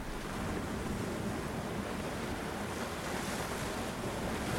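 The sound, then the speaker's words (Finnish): Cold wind blows across the sea just after the ice has melted, a loud, steady rushing roar that does not let up, with surf-like noise mixed in and no voices. “Jäät vasta sulaneet merestä ja vedenpintaa kulkeva tuuli on kylmä.”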